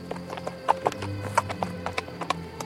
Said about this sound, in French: Le cheval marchait gaiement.